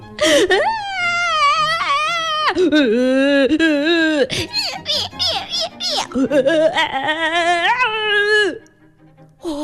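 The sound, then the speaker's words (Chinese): Voices imitate pets crying loudly together, with wavering, high, sobbing wails and whimpers that rise and fall in long, overlapping bursts, broken by short gasps. “接下来，宠物们便像迈瑞克告诉他们的那样，一起哇哇地哭了起来。”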